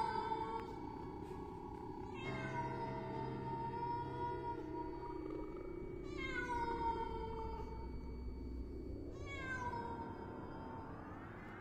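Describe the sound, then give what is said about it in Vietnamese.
Long, mournful wails of a feral cat calling to others at night, four drawn-out yowls with wavering, bending pitch, each stretched over a couple of seconds above a steady low hum. “Thay vào đó là tiếng con mèo hoang, nó kêu lên não cả ruột.”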